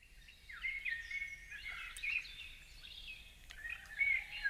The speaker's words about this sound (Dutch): luister naar de fluitende vogels en krakende krekels in plaats van je favoriete podcast